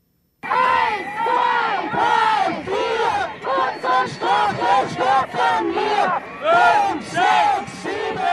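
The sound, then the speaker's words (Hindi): Protesters in Vienna, ringed by police, chant slogans against the far-right Freedom Party joining the government. A loud crowd chants together in rhythmic bursts of massed voices that rise and fall in a steady, repeating cadence. “Vienna में प्रदर्शनकारियों की आवाज सुन रहे थे आप”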